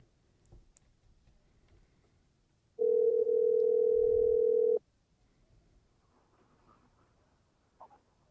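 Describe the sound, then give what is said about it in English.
Telephone dial tone heard while placing a call: a single steady, mid-pitched tone that holds for about two seconds and then stops, with near silence before and after. “Should I try to call him again? Yeah, one more time. Try one more time.”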